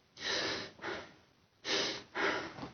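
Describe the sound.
Four heavy inhaled breaths, sharp and airy, drawn in a faulty way during a singing lesson, each lasting about half a second with short pauses between them.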